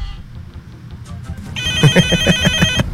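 A telephone rings with an electronic ringtone for an incoming call. After a faint, low lead-in, a bright warbling pattern repeats in rapid, steady pulses at fairly strong loudness, with no talking.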